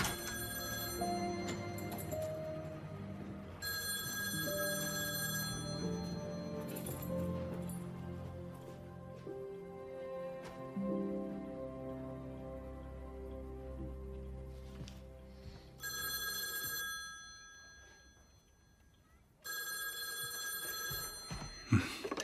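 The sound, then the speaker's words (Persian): A telephone rings in a few separate bursts of bright, steady, high ringing tones with gaps between them, over a low, continuous background hum. “مامان داره زنگ میزنه. الان میام.”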